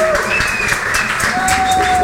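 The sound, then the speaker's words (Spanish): Audience applause follows a call to clap for a technical coordinator at a live event with saya and cumbia music, a dense, steady wash of clapping at even loudness throughout, with a faint voice underneath. “queremos pedirles un aplauso para nuestro querido amigo Carlos Rodríguez”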